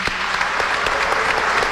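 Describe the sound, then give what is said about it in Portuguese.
Applause from the crowd at a meeting: dense, steady clapping runs through the whole clip at an even level, with no voices standing out. “também uma salva de palmas para o nosso OVM”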